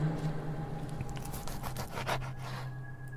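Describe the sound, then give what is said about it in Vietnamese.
A knife is sharpened with a few rasping scrapes of the blade, rough strokes clustered in the middle over a low steady hum. “Ông Thành không khống chế được nữa, cầm con dao, bắt đầu mài xoèn xoẹt xoèn xoẹt.”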